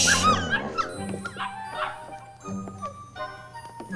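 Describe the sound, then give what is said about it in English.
A dog barks while puppies whimper, with many high, thin yips and whines tumbling over each other, rising and falling in quick bursts over a steady low background. “You get the dog. I'll get the puppies.”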